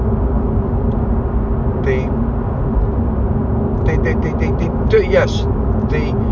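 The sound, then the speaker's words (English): A car driving slowly on a road with a 120 speed limit, at 78. A steady low rumble of engine and road noise runs throughout at an even level. “the limit, the speed limit is 120 and I'm driving at 78.”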